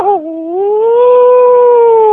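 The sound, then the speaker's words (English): A dog howls happily in one long, sustained, tuneful note that wobbles briefly at the start, dips, then rises slightly and holds steady at a fairly high pitch, clear and loud with no talk over it. “The dog is hearing, oh, that's canine way of happiness. That's a canine mom praising a child.”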